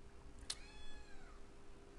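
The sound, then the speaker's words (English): A single cat meow, a short high cry whose pitch sags slightly as it trails off, quiet and alone with no voices around it. “This cat is really throwing me off. Oh, it's so cute.”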